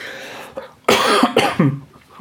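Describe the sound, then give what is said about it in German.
Coughing after choking on something: a few harsh, loud coughs in quick succession, preceded by a faint catch in the throat, then easing off. “Mal kurz verschluckt.”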